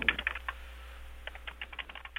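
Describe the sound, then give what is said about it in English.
Fingers type on a computer keyboard in quick, irregular bursts of many faint keystroke clicks, with no voices. “Sorry, I'm just typing all this down. I don't have a tape recorder at the moment, so I'm just having to type it all out.”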